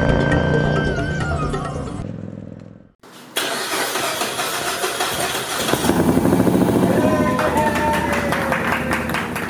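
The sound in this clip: An auto rickshaw engine from a three-wheeler rally across India cranks and catches after music fades to a brief silence, then runs with a buzzy, rattling idle that grows louder and revs over the following seconds.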